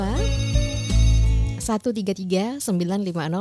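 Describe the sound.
An electronic telephone ring for an incoming caller on a phone-in line: bright, steady harmonic tones for about a second and a half, after which a voice begins talking.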